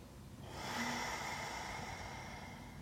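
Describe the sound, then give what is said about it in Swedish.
Deep breathing: a single long, airy breath that swells in after a short quiet moment, then holds steady and slowly eases off, faint and without talk. “Och bara ta ett par djupa andetag.”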